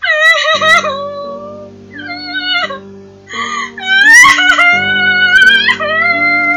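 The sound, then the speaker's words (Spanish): A girl cries bitterly in sobbing, wavering wails that rise and fall in pitch, coming in several loud bursts over a low, steady musical drone. “se echó a llorar amargamente”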